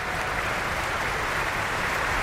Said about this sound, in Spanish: vamos a compartir esta emoción que vive el público del Festspielhaus de Bayreuth, pues escuchando esos aplausos que van dando al elenco que va saliendo